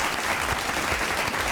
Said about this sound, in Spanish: Me uno esos aplausos. Dios mío, qué aplauso.